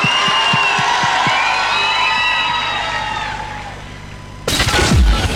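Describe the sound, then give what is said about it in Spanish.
A crowd applauds and cheers loudly, with a few sharp claps early on under sustained shouts and whistles that slowly ease off before an abrupt, louder burst of noise near the end. “un aplauso muy pero muy fuerte para Euge Quevedo.”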